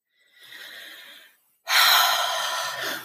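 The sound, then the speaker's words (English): One person takes a deep breath: a soft, slow inhale, a brief pause, then a longer, louder, breathy exhale that tails off gently. “A nice deep breath.”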